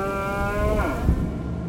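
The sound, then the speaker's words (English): A cow lows as cattle leap out of the back gate of a truck. A single drawn-out moo with rich harmonics sounds alone, sliding lower partway through. “the cows leapt. The cows ran away.”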